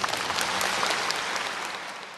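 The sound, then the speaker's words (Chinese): An audience applauds at the start of a ceremony conferring ranks. A quiet, dense crackle of clapping runs throughout and eases off slightly toward the end. “我们把它鼓掌，准备开始。”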